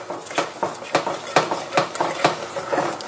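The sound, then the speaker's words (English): Eggs being stirred vigorously with sugar and butter, a run of sharp scraping clacks in a quick, fairly even rhythm, each stroke bright and brief. “I'm stirring pretty vigorously to get the eggs combined with the sugar and the butter.”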